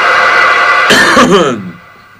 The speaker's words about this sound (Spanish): No toses así.